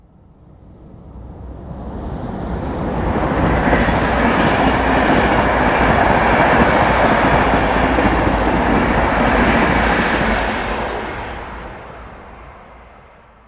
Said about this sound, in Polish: Dla porównania, ponownie przejeżdżający pociąg osobowy przy braku ekranów akustycznych.